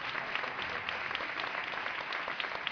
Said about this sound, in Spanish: Un aplauso para él.